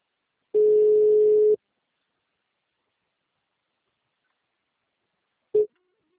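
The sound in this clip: A telephone ringback tone rings while waiting for the call to be answered: one steady, mid-pitched ring lasting about a second, a long silence, then a short clipped burst of tone.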